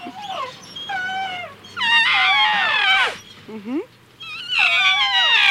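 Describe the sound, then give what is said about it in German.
A young elephant calling for its mother, voiced by a person imitating it: several loud, wailing, harmonic cries that slide downward in pitch, separated by brief gaps. “Der Elefant, der flötet auch. Oh, ja süß, der kleine Elefant, der schreit sicher nach seiner Mutter.”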